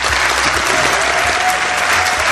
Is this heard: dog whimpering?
no